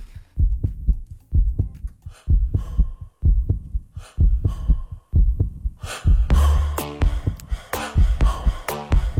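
Heartbeat recorded during a fitness test and used as the beat of a song: many steady, fast, deep thumps pulsing in a regular rhythm, with bright tonal synth-like sounds joining over the last few seconds.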